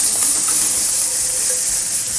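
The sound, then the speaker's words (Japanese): Onions sizzle as they are stir-fried in a pan, giving a steady, bright hiss of frying that holds evenly throughout with no voices. “はい、玉ねぎも炒めちゃいます。”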